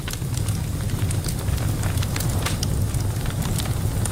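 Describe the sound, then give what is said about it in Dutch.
A crackling wood fire burns in an open fireplace or wood stove, giving a steady hiss with many sharp, scattered pops over a low, constant rumble. “Het is gezellig, een brandende open haard of houtkachel.”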